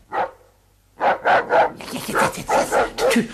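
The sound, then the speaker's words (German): A wolfhound barks loudly: one sharp bark, a short pause, then a rapid run of many barks in a fairly even rhythm. “dass der Tyras, ein Wolfshund aus dem Vorderhaus, sich veranlasst fühlte, auch wieder zu bellen. Und als daraufhin der Pumuckl zurückbellte”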